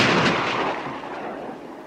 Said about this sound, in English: Recruits shoot at targets, bearing a silhouette of a man.